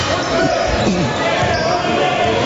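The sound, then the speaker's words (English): A basketball being dribbled on a court during a close game, a few soft thumping bounces under dense crowd noise, with a voice talking over it. “works the dribble up high”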